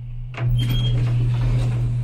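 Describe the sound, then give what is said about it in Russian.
Elevator doors slide open over a steady low hum. A sudden swell of rushing noise starts just after the opening moment and continues as an even rumble to the end. “Двери лифта открываются.”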